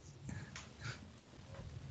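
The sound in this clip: Dog-like snorts and breathy panting in an advertisement, used as a motorcycle engine that sounds like a dog; several short, rough, huffing bursts at fairly low volume with no talking.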